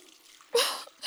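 Water runs as hands are rinsed after scrubbing the nails, wrists and arms: a soft hiss bursts on, fades over a moment, stops briefly, then starts again, faint against a quiet background.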